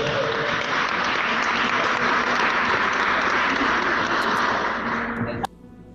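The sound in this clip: Applause from a church audience, a dense continuous clapping roar at full loudness for about five seconds that ends abruptly, followed by near quiet.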